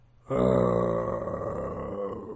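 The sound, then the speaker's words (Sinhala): A ghost dog growling as a sound effect: one deep, sustained groaning growl that starts abruptly and stays loud for about two seconds, heard alone. “ඒ හොල්මන් බල්ලා ගොරවන සද්දේද?”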